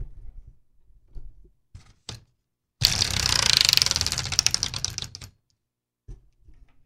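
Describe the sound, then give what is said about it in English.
A makeshift former prize wheel spins close to the microphone, with a dense, rapid run of loud clicks for about two and a half seconds, framed by a few scattered knocks and handling sounds before and after. “I'm going to move the microphone close to the wheel so you get that awesome brrr sound again of our jerry-rigged makeshift former prize wheel turned into the quarterback wheel of destiny.”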